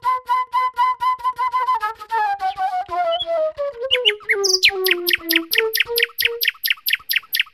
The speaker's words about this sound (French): Comment entendre ces rossignols qui viennent me visiter chaque matin.